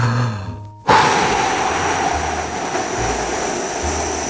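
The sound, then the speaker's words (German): Forceful exhaling while lying on the floor, a sudden loud rush of breath that stays as a sustained, noisy whoosh after a brief quieter lead-in, with no speech. “Jetzt kräftig ausatmen.”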